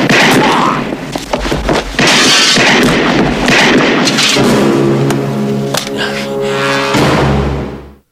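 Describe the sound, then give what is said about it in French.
Gunshots from a big pistol in a film scene: loud, sharp booming cracks within a dense, busy soundtrack that stays loud throughout before cutting off abruptly at the end. “Donc là, on a un grand pistolet. C'est le drame. Et Acme, il est dead”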